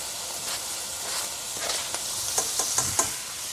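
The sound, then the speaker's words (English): Apples, raisins and garlic sautéing in a pan give a faint, steady sizzle with soft stirring scrapes, and a few light taps come near the end. “And stir that up a little bit. I'm going to saute this for about, well, again, 3 to 4 minutes.”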